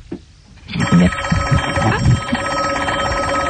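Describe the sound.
A telephone on a direct line rings in a studio, a bright, sustained trilling ring starting after a brief bump and continuing steadily to the end, with a voice briefly audible underneath.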